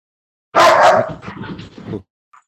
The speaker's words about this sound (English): sorry about my dog, give me a second. Didn't mean to upset you, doggo. Don't hurt me, please.